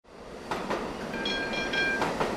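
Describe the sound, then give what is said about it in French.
A tram arriving on its rails: a steady metallic rumble with a few sharp clacks and a thin, high, sustained wheel squeal through the middle. “le tram arrive.”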